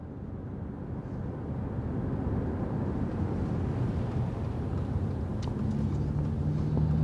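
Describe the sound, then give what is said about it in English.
Car driving through a West Philadelphia neighborhood, a steady low engine and road rumble that holds at an even level throughout, with faint higher sounds appearing near the end. “I'm driving around West Philadelphia with Mike Africa Jr.”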